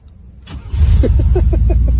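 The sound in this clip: A push-button-start car engine cranks briefly and catches, then settles into a loud, steady rumble with a regular pulsing beat.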